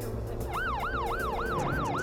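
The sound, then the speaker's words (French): An ambulance siren wails as it rushes a child to a children's hospital. The siren repeats a quick rising-and-falling yelp about six times over a steady low engine rumble. “Une ambulance le conduit de toute urgence à l'hôpital pour enfants.”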